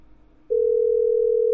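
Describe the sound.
Telephone dial tone while a call is being placed: after half a second of faint background noise, a steady, loud, unbroken single-pitched tone starts abruptly and holds to the end.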